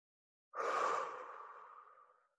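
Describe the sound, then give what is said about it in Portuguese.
A single deep breath taken during a guided breathing exercise starts abruptly, swells to a full airy rush and then slowly fades over about two seconds, alone. “10 respirações profundas. Significa enche a tua barriga, enche o teu tórax e esvazia de novo. Vamos nós. Inspira.”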